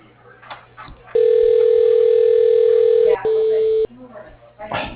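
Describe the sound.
A phone call is transferred to voicemail as a loud, steady tone lasting about two seconds, then a brief, slightly lower second tone, with faint voices murmuring before and after.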